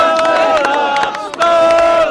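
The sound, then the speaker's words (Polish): Crowd booing a questioner at a presidential visit: loud, sustained jeering voices held on drawn-out tones, a brief dip midway before the booing swells again. “Pytający jednak został przez tłum wybuczany.”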